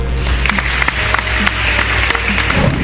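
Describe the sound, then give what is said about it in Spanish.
Applause of many clapping hands, a loud, steady patter of overlapping claps over a low hum, lasting about three seconds. “Un aplauso para ellos.”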